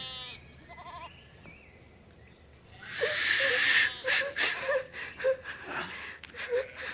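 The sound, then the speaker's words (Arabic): A girl moans and gasps in a wheezy, breathy run of short cries out where a shepherd girl tends sheep. The cries come after a quiet opening and break into several rapid pulses. “يبدو أن هناك صوت أنين من هنا.”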